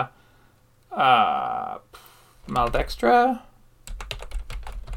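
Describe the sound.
Someone types on a computer keyboard, producing a quick burst of many light clicking keystrokes in the final second, after a person talks briefly.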